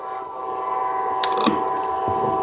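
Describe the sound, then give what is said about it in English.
Train passing: a loud, sustained tonal drone with layered steady harmonics and a constant rumble, unbroken for the whole short stretch. “I think that's the train you were talking about.”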